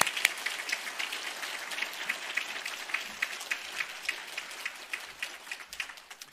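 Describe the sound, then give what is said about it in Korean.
An audience in a church service claps to welcome a pastor. Sustained applause runs for over six seconds as a dense patter of many hands, with sharper individual claps standing out throughout and no voices. “목사님 힘내시라고 박수로 목사님을 맞이하시겠습니다”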